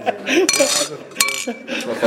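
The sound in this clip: Clinking of a ceramic bowl at a table: a few sharp, bright clinks mixed in with people talking.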